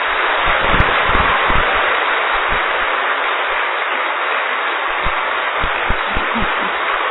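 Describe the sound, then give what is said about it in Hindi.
Steady applause from a group at a yoga session, a dense, continuous patter lasting the whole stretch, with a few low thumps. “अरे वाह, अब अच्छी ताली बजा दीजिए।”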